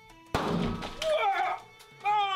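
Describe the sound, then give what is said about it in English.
A cake bursts with a sudden thump and a short spray of noisy splatter, followed by voices. “with the cake exploding, it's pretty clear that that the footage is clearly saying that it's the 200th podcast episode”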